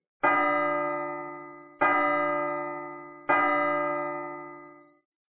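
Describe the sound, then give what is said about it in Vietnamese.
A bell is struck three times at even intervals, each strike giving a bright, rich metallic tone with many overtones that rings on and slowly decays before the next. “Ba tiếng dội chuông vang lên”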